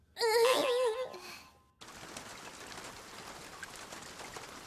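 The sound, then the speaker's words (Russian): Heavy rain pours down in a steady, even hiss, preceded by a brief, high wavering vocal wail. “Льет как из ведра.”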